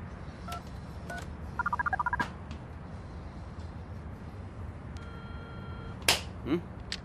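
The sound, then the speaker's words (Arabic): Touch-tone telephone dialling while calling a city air-pollution control office: a quick run of several bright keypad beeps, with a few isolated beeps before it and a longer steady tone and a click afterwards. No voices. “رح ضل دق لهم لحتى يردوا علي مره ثانيه.”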